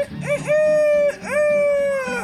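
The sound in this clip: A human voice imitates a rooster crowing, giving two long crows in a row, each opening with a quick rising yelp and then holding a loud, bright, nasal tone before trailing off.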